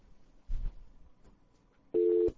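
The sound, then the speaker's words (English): A telephone tone from a phone patch sounds as one short, steady, fairly loud electronic burst near the end, after a soft low thump and faint background noise. “I give you a dial tone from the phone patch as well”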